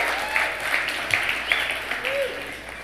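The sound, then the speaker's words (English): An audience applauds the band after a performance in a church service. Steady clapping runs throughout, with a few short whistles rising above it and a voice speaking over the crowd. “Give it up for the band. Were they awesome tonight?”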